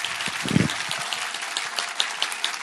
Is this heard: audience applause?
yes